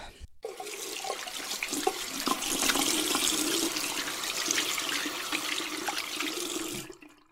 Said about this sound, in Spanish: Déjenme ir a lavar rápidamente las manos.